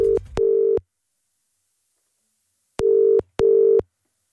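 A telephone ringing tone while placing a call, with two pairs of short steady electronic beeps separated by a long silence, each burst clean and moderately loud with no talk.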